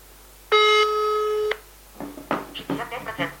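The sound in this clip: Ringing tone of an outgoing telephone call: one steady, buzzy tone lasting about a second, then a voice speaking in several short phrases.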